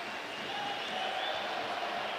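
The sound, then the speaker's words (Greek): National team football fans applaud in the stadium stands, a faint, even patter of many hands that holds steady throughout. “Χειροκροτούει ο κόσμος στις εξέδρες.”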